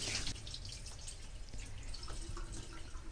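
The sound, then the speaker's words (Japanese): Water is poured into a bowl of rice and then drained off while the rice is washed, a steady, continuous splashing and trickling at moderate level with no talk. “まず1回目はあまり触らずにお米にひたひたの量のお水を注いで、お水を捨てます。”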